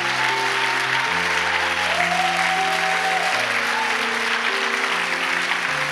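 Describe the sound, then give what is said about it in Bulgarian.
Dense, steady applause from a church audience fills the whole stretch, with sustained music chords underneath that shift pitch a few times. “Ръкопляска, ако вярваш това, което предвяваме.”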